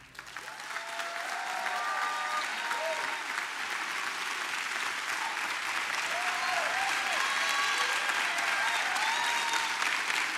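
Sustained applause from a church audience welcoming a pastor to the stage, a dense, even roar of clapping that swells in the first second and holds steady and loud for about ten seconds, with no talking over it.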